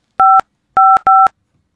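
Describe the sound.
Three telephone keypad tones as a number is dialed to call a school principal, each a short steady two-pitch beep, loud and clean, the second and third close together, with no voices.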